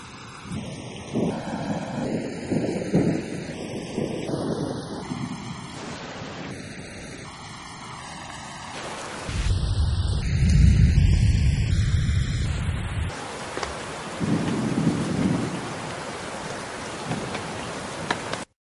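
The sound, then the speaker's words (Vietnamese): A sudden thunderstorm with wind and steady hissing rain, and a deep rumble of thunder swelling midway, all beneath a melody of bright, bell-like notes. “Ngày hôm nay đột nhiên gió nổi bão về, bầu trời trong nháy mắt tối mù.”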